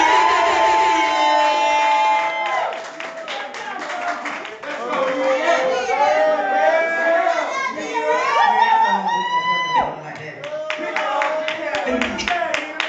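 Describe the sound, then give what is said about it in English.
A crowd claps and cheers as a comedy performer is brought to the stage, a thick wash of applause with excited shouts and voices over tonal music. “I want y'all to put your hands together. Get loud. Y'all ready? Put your hands together for Miss Nina Ross.”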